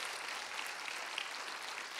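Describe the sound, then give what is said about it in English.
An audience applauding during a church sermon, a faint, even wash of many hand claps lasting about two seconds. “If you believe that, give Jesus one big round of applause.”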